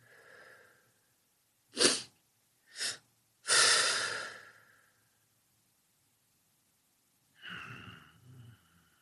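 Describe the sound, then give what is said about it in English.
Deliberate breathing by a person settling into a calm state: a few sharp, noisy breaths and one longer exhale, separated by silent pauses, with no talk. “if you would please, to facilitate this, put yourself in a calm state and breathe.”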